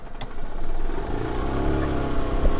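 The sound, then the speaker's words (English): A small yellow golf cart drives through rows of cherry trees in an orchard, its motor giving a steady low hum and rumble that holds even throughout, with no voices. “We hopped on a little yellow golf cart. We're just driving through rows and rows of huge cherry trees”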